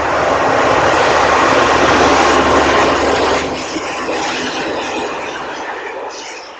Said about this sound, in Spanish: Aquí les muestro un ejemplo de un tren a 44 estéreo de 10 megas.